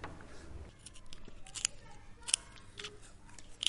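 Scissors cutting: a quick series of crisp snips, faint at first, then sharper and more frequent, with the loudest cuts toward the end.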